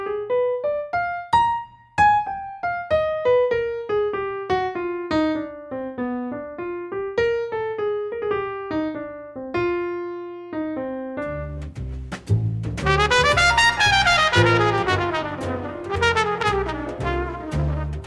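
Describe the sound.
Jazz piano lick over a minor-blues 2-5-1 cadence, played slowed down: a single-note line of many distinct notes winding downward and back up, then a denser, louder cluster of overlapping notes near the end.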